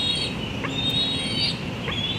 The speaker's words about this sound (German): Es ist Ende Mai und im Adlerhorst hoch oben in einem Tulpenbaum im Nordosten von Washington D.C. zetert ein Küken.